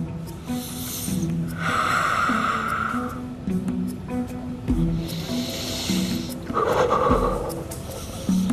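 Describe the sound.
Deep, slow breathing by a nervous flyer trying to stay calm: three long hissing breaths, each a few seconds apart, over a steady low hum.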